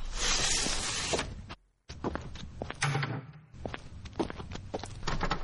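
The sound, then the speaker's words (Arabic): Balcony window shutters and glass panes being shut in a ground-floor apartment: a long rolling slide, a brief silence, then scraping, rattling and a series of sharp clacks and knocks, moderately loud, with no talk. “اقفلي شباك البلكونة كويس والإزاز كمان. طب كده البيت كله هيبقى متقفل شيش وإزاز”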